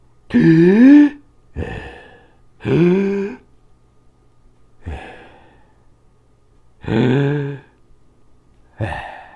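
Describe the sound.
Two people take three deep breaths together. Each is a loud, voiced, sigh-like breath followed by a shorter, softer one, evenly spaced with quiet gaps between.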